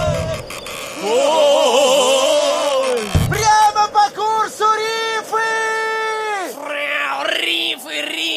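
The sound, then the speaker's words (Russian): A cat yowls and meows after jumping onto a ship's steering wheel, letting out many loud, drawn-out, wavering cries in several bursts, some sliding up and down in pitch. “Кот прыгнул на штурвал!”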